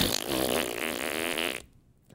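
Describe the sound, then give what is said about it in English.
A fart sound effect: a single loud, buzzy, rasping blast lasting about a second and a half, then cutting off abruptly into near silence. No voices are heard. “oh, excuse me, did so-and-so just fart on live television?”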